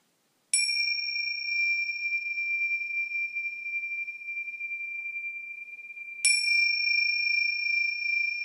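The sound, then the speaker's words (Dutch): Two strikes of small bells, each a clear, high ringing tone that sustains for several seconds. The first rings on alone and fades slowly before the second strike comes about six seconds later. “Ik zal even de belletjes laten horen.”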